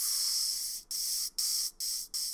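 An inflating pump gives off a hissing spray in repeated bursts: one long rush, then several shorter ones in quick succession with brief silent gaps between them.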